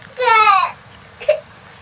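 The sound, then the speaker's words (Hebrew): A young girl cries while having her hair washed, afraid of soap getting in her eyes. One strained, harmonic-rich wail is followed after a pause by a brief, higher whimper, heard alone. “למה את בוכה?”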